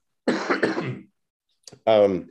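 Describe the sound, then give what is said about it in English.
A person clears their throat in two rough, throaty bursts, the first longer and the second a short voiced rasp after a brief pause, heard alone with no talk. “I got to clear my throat. Hold on a second.”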